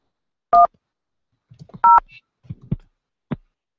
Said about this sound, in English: If you know the extension number of the party you wish to reach, please dial it now.